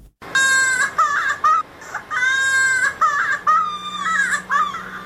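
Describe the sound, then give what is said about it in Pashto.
A small child cries at a polio vaccination in Helmand, with loud, high, sustained wails broken into repeated bursts with short gaps, and no talk over them. “دغه تفصیلي راپور چمتو کړی چې د یو ماشوم په ژړا پیلېږي.”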